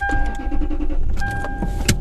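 A car's warning chime sounding because a child has been left in the car seat. Two sustained, steady electronic tones are separated by a short gap, over a low vehicle rumble.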